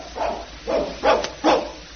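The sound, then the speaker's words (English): An old pet dog barks four times in an evenly spaced series of short, mid-pitched barks, each clear and fairly loud, with no voices between them. “I thought I told you not to bring that dog in here.”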